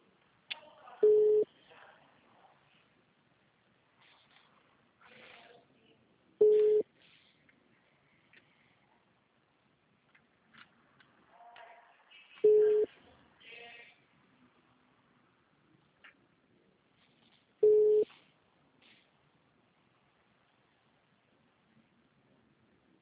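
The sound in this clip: An unanswered phone call ringing out before voicemail picks up: four short, steady ringback tones at an even pitch, spaced about five seconds apart, with faint low noise in the gaps.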